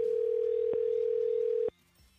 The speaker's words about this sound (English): we're calling people on this goofy Google voice number, so I have no way of calling them ahead of time to let them know.